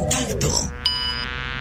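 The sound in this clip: A housefly buzzes in a steady, even drone with a thin high whine, following a brief burst of voice-like sound at the start.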